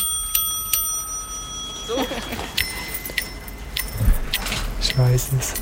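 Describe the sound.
A bicycle bell rings with bright metallic overtones: two quick strikes near the start leave a lingering ring, followed by assorted metallic clicks and rattles, recorded for a children's sound-guessing game.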